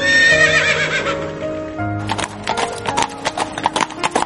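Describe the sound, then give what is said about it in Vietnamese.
Horses neigh in long, harmonically rich whinnies, then a herd of twenty-one horses gallops off through snow, their hoofbeats forming a quick, uneven run of many thudding strikes that continues to the end. “Có ngựa quật tung vụn tuyết, 21 con ngựa rách rút chạy đi”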